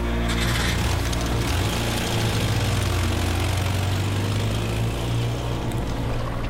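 A car engine runs loudly with a steady, low droning hum and a constant mechanical rumble throughout, with no break or pause.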